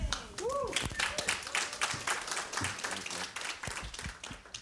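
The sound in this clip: A church audience applauds to welcome a speaker during a morning service: a dense, steady patter of many hands clapping, with a voice heard briefly near the start.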